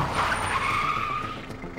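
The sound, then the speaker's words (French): Tires squeal as a car skids to a stop on the roadside, a loud high-pitched screech that holds and slides over a low rumble, heard alone without voices. “Méfiant, Clyde l'observe discrètement dans le rétroviseur, puis soudain donne un coup de volant et s'arrête en dérapage sur le bord de la route.”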